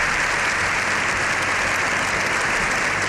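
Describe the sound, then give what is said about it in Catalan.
Dense, sustained applause from a large crowd in a parliament chamber, a standing ovation after the pope's address, a steady roar of clapping throughout. “Lleó XIV ha rebut una ovació de 7 minuts al final de la seva intervenció”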